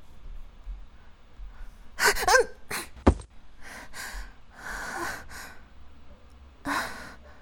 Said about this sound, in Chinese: 您的呼吸好重，您受伤了吗？